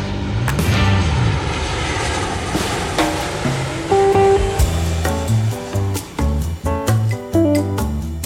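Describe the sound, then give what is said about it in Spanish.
An airplane taking off, a loud, sustained engine roar with shifting tonal whines layered over it, holding strong throughout before a few dips near the end. “Agarraos que despegamos.”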